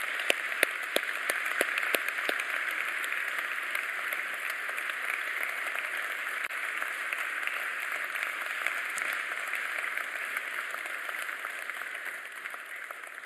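Applause from a church audience welcoming a guest: a steady, even wash of clapping that holds throughout, fairly soft, with no voices.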